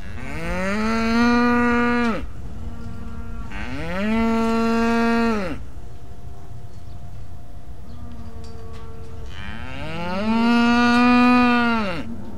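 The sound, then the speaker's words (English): An agitated cow just separated from her calf moos loudly three times in long, drawn-out, rising and falling calls, with fainter, lower steady lowing between them. “happy cows are pretty quiet. But this Bessie was agitated. She had just been separated from her calf and wasn't going to let her go quietly.”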